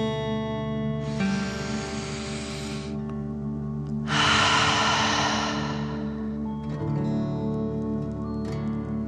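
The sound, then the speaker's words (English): Slow breathing in and then out, as in a calming exercise imagining fire coming from the mouth. Two soft, breathy rushes, the second longer, sit over a steady background of sustained musical tones. “and then breathe out, pretending fire is coming out of your mouth. Ready? Breathe in and out.”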